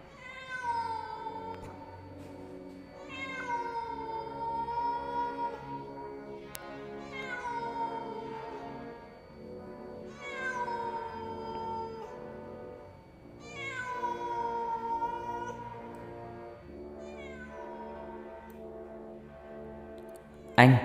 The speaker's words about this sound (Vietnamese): Vẳng từ đâu đây có tiếng một con mèo kêu lên, nghe não nòng kinh khủng.